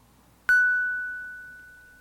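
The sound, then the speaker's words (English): A single music box note: one bright, pure metallic ping that strikes sharply and then rings on with a long, slowly fading sustain, heard alone against near silence. “This is the sound of a music box note.”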